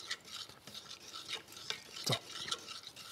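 Faint scraping and light tapping as a fork draws a decorative pattern through melted chocolate on a dessert, a series of many short, quiet strokes.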